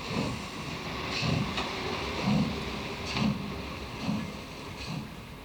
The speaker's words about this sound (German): Bitte einsteigen, die Türen schließen selbsttätig. Vorsicht bei der Abfahrt.